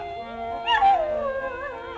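A white poodle howls in one long, wavering cry that climbs, then slides down in pitch and trails off into a thinner, steadier whine, heard alone without talk.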